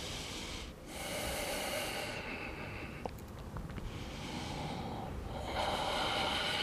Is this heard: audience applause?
no